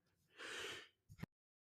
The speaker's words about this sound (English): forgive me, I sneezed and I'm not editing that out. I just don't want to sneeze in the microphone.